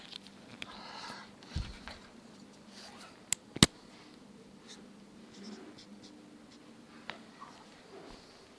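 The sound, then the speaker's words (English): A pen draws in another color while a $1 product price level is sketched during an economics explanation. Faint scratchy strokes come through, broken by a couple of sharp clicks. “Oops, let me draw that with another color here.”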